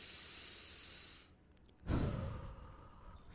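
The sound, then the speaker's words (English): Deep breath drawn in with a soft, airy hiss, a brief pause, then let out in a stronger, rushing exhale that slowly tapers off. “And what I do is I take a deep breath. You guys could do it with me now.”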